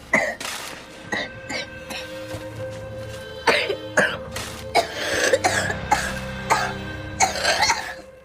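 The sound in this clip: A boy coughing into his mother's stomach as she holds him tightly: many harsh, muffled coughs and throat-clearing bursts come at irregular intervals over several seconds.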